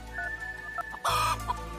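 Chickens clucking: a few short, soft clucks, then a louder, drawn-out squawk near the middle, followed by further quieter clucks.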